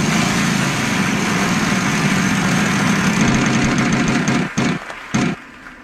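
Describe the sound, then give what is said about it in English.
A game wheel spinning: a dense, loud whirring rattle that holds steady, then slows into a few separate clicks before it stops. “It is time to find out what game we are going to play today. Let's spin the wheel.”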